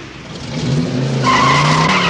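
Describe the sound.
Tires squeal as a car pulls away, a loud skidding screech that grows over about two seconds under the car's engine noise.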